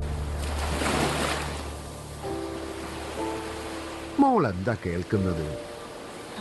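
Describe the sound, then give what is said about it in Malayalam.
Sea waves washing in a broad, hissing surge, strongest in the first two seconds, after which steady tones and a wavering sound enter over the surf. “കടലിന്റെ ശബ്ദം. കടലിന്റെ ശബ്ദം എന്ന് പറഞ്ഞാ തിരയുടെ ശബ്ദം.”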